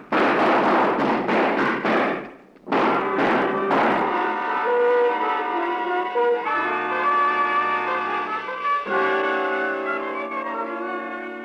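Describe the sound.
Gunshots fired during a struggle crack out in a rapid, irregular burst of sharp reports. Sustained dramatic music with long held tones follows them.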